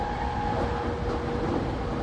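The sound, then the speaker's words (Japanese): A Keisei through-service train bound for Tokyo runs with a steady, dense rumble and rolling wheel noise, even in loudness throughout and with no voices. “この電車は京成直通電車東京行きです。”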